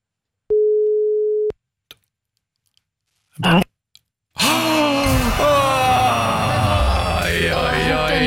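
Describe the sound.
A telephone ringing tone on a call: one steady, mid-pitched tone lasting about a second, followed after a pause by short clicks and a breathy noise, then loud talk and noise.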